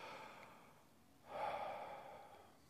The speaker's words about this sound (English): Would you just take a deep breath right now?